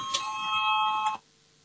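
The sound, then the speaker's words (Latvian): An electronic voting bell in a parliament chamber sounds two bright chime strikes, each followed by sustained, steady ringing tones that cut off abruptly. “Lūdzu zvanu, balsosim par ceturto tieslietu ministra Bordāna priekšlikumu. Lūdzu balsosim.”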